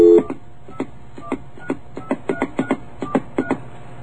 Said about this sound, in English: Wait a second. I think I dialed the wrong number.